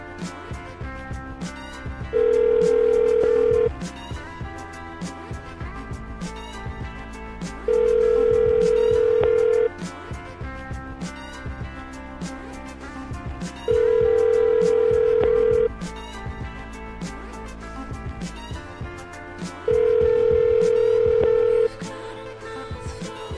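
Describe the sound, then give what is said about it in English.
Four long, steady telephone tones sound at even intervals while a call is placed. Each lasts about two seconds and sits over continuous background music. “so maybe the music will play while I'm calling Showtime, so I'm going to dial him right now.”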